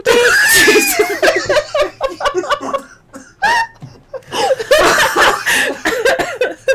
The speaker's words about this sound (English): Sorry for your ears of us laughing and coughing.